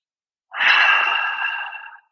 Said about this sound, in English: Nice deep breath.